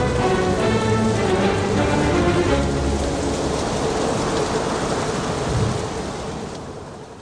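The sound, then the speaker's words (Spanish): Heavy rain pours down through the night as a violent hurricane roars, a dense, steady hiss and drumming with deep rumbling underneath, loud and unbroken before easing off and fading toward the end. “El huracán ruge durante toda la noche con inusitada violencia. La lluvia semeja a un verdadero diluvio.”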